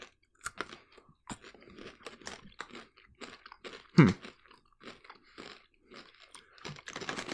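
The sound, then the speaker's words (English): Crunching bite through a caramel-flavoured milk chocolate candy, heard as many small crisp clicks and crackles, with one sharper, louder crunch partway through as the piece is bitten in half. “I'm going to bite one in half and get a cross section.”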